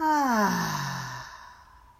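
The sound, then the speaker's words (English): A deep breath during a guided breathing exercise: a voiced, sigh-like exhale that starts loud and slides down in pitch, then thins into a soft, breathy tail that fades out. “and out. Breathe in and out.”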